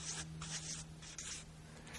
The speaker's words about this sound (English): When your faith is tested, and I'm going to write this out here.